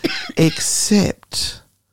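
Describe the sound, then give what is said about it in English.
A cough breaks in among people talking, a short, harsh, noisy burst standing apart from the voices, which carry on around it. “I'm building the tension here and you've coughed in the middle of it.”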